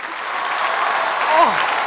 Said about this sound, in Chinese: 来来掌声和尖叫